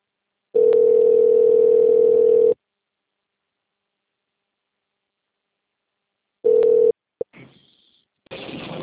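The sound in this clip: A telephone dial tone sounds after a dropped call, a loud steady hum lasting about two seconds. Silence follows, then a brief return of the tone, a click and soft hiss.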